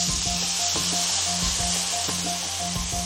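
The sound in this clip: Water poured into a hot wok of fried fermented black beans and chopped dried chilies for mapo tofu gives a loud, steady sizzling hiss that lasts throughout, with faint rhythmic tones underneath.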